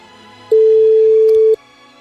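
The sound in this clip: Telephone ringing during a radio call-in: a single steady electronic ring tone, loud and lower-pitched, holding for about one second over a quiet background.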